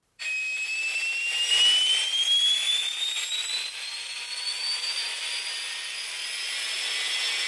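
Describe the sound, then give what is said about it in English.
Foot rockets firing for takeoff give a loud jet-like roar that bursts in abruptly and holds steady, with a high whine climbing in pitch over the first few seconds before levelling off. “Your foot rockets have enough thrust to break atmosphere. Go quickly and bring me my prize.”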